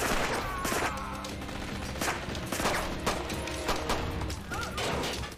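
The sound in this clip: Gunshots ring out in a rapid fusillade, many sharp cracks piling on top of one another in an unbroken, cluttered barrage at moderate loudness.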